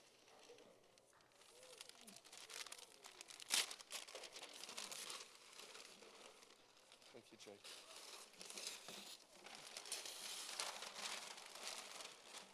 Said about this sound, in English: So you can unwrap your gift.